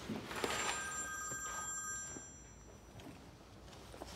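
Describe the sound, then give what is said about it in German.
A telephone rings with a bright, steady electronic bell tone for a couple of seconds before fading away, quiet and heard alone without talk. “Anruf für Franzi?”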